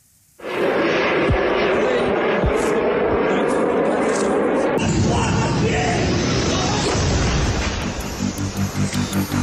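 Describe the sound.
A Shahed attack drone flies with a loud, steady engine roar that starts abruptly. Toward the end the sound turns into a rhythmic, pulsing throb.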